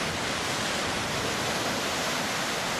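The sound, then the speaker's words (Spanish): Sea waves make a dense, continuous rushing wash that stays loud and even throughout, with no separate breaks and no voices. “un sonido del mar con las olas y que vienen y van.”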